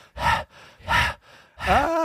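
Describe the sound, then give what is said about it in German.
A man pants audibly in three loud, breathy bursts separated by short pauses; the third is longer and carries a voiced, tonal edge. “Ah, du hechelst, Mann. Ich hechel, Mann.”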